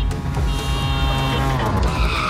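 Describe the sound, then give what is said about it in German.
A tuk-tuk drives past with a continuous, loud motor drone. Whining engine tones waver and shift slightly in pitch throughout, over dense, steady noise, with no talk. “Da ist auch gerade eben das Tuk-Tuk durch Deutschlands biggest Beats gefahren.”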